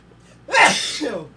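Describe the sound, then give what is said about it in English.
A single loud, explosive sneeze bursts out after a quiet lead-in, trailing off into a breathy exhale. “I had to turn my mic off for those sneezes. I'm like certain that they were able to hear it through mic 3.”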